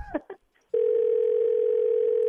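A telephone dial tone sounds while calling someone back, a steady, unbroken mid-pitched tone that starts abruptly after a few brief short sounds and holds to the end.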